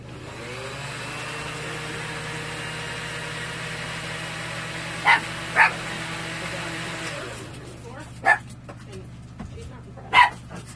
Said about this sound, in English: I shall blend that and see what it looks like.